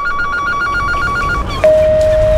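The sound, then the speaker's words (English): A telephone rings unanswered with a rapid electronic trilling pattern for about a second and a half, then cuts off into a loud, steady single tone. “Your call has been forwarded to voicemail. That could have been your next customer. Every unanswered call is a missed opportunity.”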